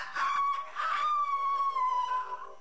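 A rooster crows in one long call that opens with two short strained bursts, then holds a bright, steady tone and trails off at the end, with no voices.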